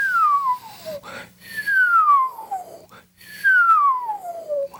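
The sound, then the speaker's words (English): Whistling made by breathing in, three long, clear whistles, each gliding steadily downward in pitch, with short breathy pauses between them. “If you'll close your eyes and whistle by breathing in and lower the pitch, visualize what your tongue is doing.”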